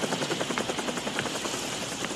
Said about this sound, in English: And a helicopter lowers a ladder and they both grab onto